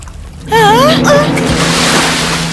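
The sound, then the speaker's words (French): A splash into salty sea water bursts in as a loud, sustained wash of water noise. A brief, wavering high vocal cry rides over its start. “Oh, de l'eau salée. On dirait que je suis tombée dans la mer.”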